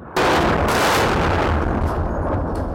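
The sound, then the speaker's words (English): Heavy gunfire in residential areas of Khartoum, Sudan, bursts in suddenly and continues as a dense, loud roar of shots and blasts with a few sharper cracks. “Gunshots rang out in residential areas, fighter jets thundered across apartment blocks,”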